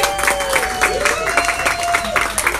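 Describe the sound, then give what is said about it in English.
An audience applauds a graduate with steady clapping that continues throughout, while voices are heard over the applause. “So, everybody give Boswell a hand.”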